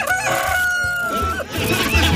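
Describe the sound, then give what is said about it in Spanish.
A rooster on a farm crows once in a loud, long, strained call that holds a steady pitch before breaking off, followed by rougher fowl noises. “Ay, mira, ahí está el gallo. Es el gallo.”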